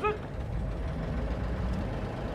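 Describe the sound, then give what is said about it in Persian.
A car's engine as it approaches a checkpoint: a low, steady rumble holds at an even, moderate level throughout. “ماشین ابو خالد از روبرو میرسه.”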